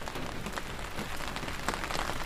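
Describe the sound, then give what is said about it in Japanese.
Rain falls in a steady, dense hiss with soft patter throughout, even in level and unbroken, with no voices. “雨が降り出した日にアメネコと一緒に外へ出かけました。”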